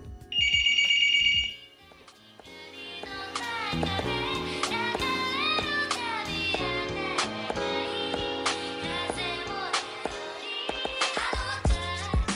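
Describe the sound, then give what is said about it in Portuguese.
A phone rings with an incoming call: a bright, warbling electronic ringtone lasting just over a second, after which music plays on steadily. “Opa, ligação, peraí. Vou dar uma pausinha aqui.”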